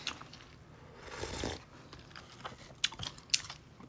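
Faint chewing and biting while eating Nissin instant dandan noodles sprinkled with chili pepper, soft mouth noises with a few sharp crunchy clicks near the end.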